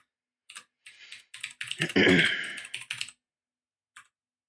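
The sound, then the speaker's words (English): Bursts of typing on a computer keyboard: clusters of crisp keystrokes with a dense flurry in the middle, brief pauses between groups and one last isolated tap after a gap. “I didn't put their secret info on here, so I'll just type it out for you.”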